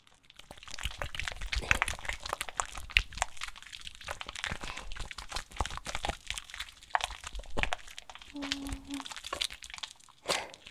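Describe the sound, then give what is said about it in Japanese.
Crackling, fizzing foam made by a hand stirring soapy water to whip up lots of bubbles. A dense, irregular crinkle runs throughout with scattered sharper pops, steady and fairly quiet. “まずね、手のひらでかき混ぜて、あわあわたっくさん作ろっか。”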